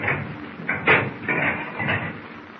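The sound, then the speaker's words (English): A submarine's conning tower hatch is opened with a few dull metallic knocks and scraping bursts spread unevenly over about two seconds. “Open the conning tower hatch. We will go on deck for a breath of fresh air.”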